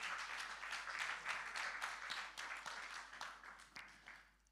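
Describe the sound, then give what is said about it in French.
A church audience applauds in praise, faint steady clapping with a loose rhythmic pulse that fades out at the end. “Est-ce qu'on peut acclamer pour la gloire du Seigneur?”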